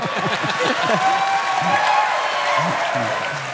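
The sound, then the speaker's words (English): Audience applause at a live show at the Ryman, a continuous wash of clapping with a voice speaking over it. “has applause for God, guys. Yeah, that, give it up for God.”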